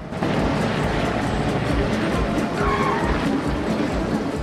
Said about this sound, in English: Joey's driver pulls slowly onto the main drag and drives after the van.